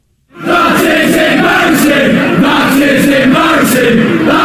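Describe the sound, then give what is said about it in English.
A large crowd chants in unison, a loud, dense roar of voices that starts abruptly after a brief silence and holds steady with rhythmic pulses. “Now see if you can tell what this chant says,”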